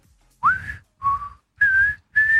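A person whistles a song tune in a song-guessing game: four clear, sustained whistled notes separated by short pauses, the first sliding upward into its pitch, alone and fairly loud.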